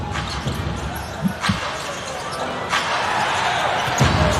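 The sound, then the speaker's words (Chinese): A basketball is dribbled during a game. A few firm, evenly spaced bounces thud over a steady wash of crowd noise. “运球在篮下，为所欲为。”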